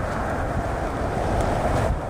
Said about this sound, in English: Wind blowing through the trees.